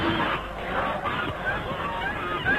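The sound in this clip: A flock of white geese honks in dense, overlapping calls as a cyclist rides into them on a small path, the cries rising and falling in a continuous, noisy clamour.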